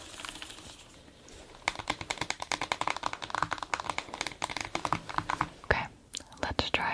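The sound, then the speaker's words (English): Typing on a computer keyboard begins after a quiet opening, with many quick, crisp key clicks in an uneven, fast rhythm and occasional heavier strokes, all fairly faint. “I just always want the spacebar to sound more like the other keys.”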